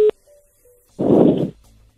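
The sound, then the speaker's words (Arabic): Telephone call tones as a call is being placed: one loud, short beep, then a couple of fainter brief tones at the same pitch, alone without voices. “عم جرب اتصل فيك”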